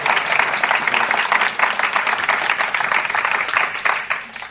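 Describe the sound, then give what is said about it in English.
Audience applause welcoming a poet at the Dunedin Writers and Readers Festival: dense, steady clapping from many hands that holds evenly, then tapers off near the end. “I'd like you to put your hands together to welcome our guest”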